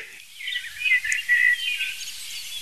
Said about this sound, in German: Und ich würde mal sagen, Protagonist ist die Amsel. Nebenrolle, nee, zweite Hauptrolle ist die Singdrossel und dann verschiedene Akteure in den Nebenrollen.